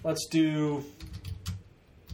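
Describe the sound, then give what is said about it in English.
Typing a search on a computer keyboard: soft, quick key clicks in an uneven patter follow a brief voice at the start, staying fairly faint throughout. “If I type in Miami Plumber,”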